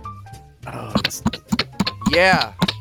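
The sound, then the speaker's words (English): A card is tapped on a surface in a quick, uneven series of sharp, dry taps, with a voice briefly heard among them. “Can you tap your card on a surface? Can we hear a tap of a card?”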